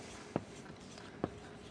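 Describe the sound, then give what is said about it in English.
Hand-writing a word: a faint, continuous scratching of the pen, marked by two sharp little taps spaced almost a second apart. “So I'm going to write down the word follow.”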